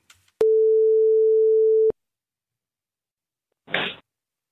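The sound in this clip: A telephone signal from a call that fails to connect sounds as one long, steady mid-pitched tone of about a second and a half. Silence follows, then a short hissy burst.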